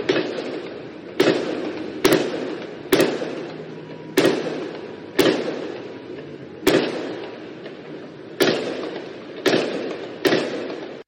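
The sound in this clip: A shooter fires gunshots inside a hotel in a Jewish neighborhood. There are many sharp, loud bangs at irregular intervals, each followed by a short decaying tail. Two shots come almost together.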